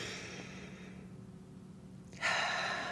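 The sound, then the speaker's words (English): A person takes a deep breath, heard as a soft, airy hiss that swells in suddenly near the end after a quiet stretch. “So I want you to take a moment to just take a deep breath. Go ahead.”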